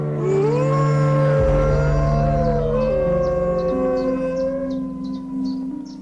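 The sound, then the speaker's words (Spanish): Wolves from a pack howl together in a chorus of long, overlapping, wavering howls that slide up and down in pitch. The howling is loud and continuous throughout. “El aullido se utiliza para mantener una distancia prudente entre manadas rivales, evitando posibles enfrentamientos sobre las presas.”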